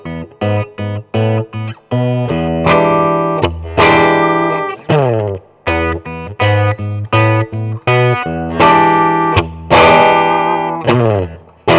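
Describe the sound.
A distorted electric guitar plays a blues riff built on an open B string with an ascending line on the A string. Choppy, clipped notes give way to louder sustained chords, repeated in a loose, rhythmic pattern without voices.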